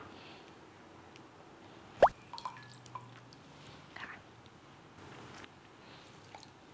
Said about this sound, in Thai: ขอใส่มะนาวนิดหนึ่งเพื่อให้มันไม่เป็นสีน้ำเงินเกินไปขอออกม่วง